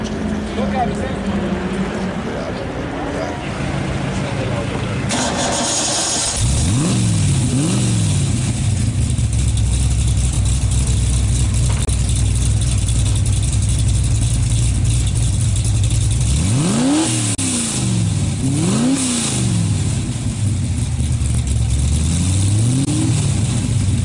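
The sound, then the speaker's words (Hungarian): Racetrack background noise with car engines revving over a steady loud rumble, their pitch repeatedly sweeping up and down in a few bursts, with voices underneath. “Még csak ez a versenypálya háttérzaj.”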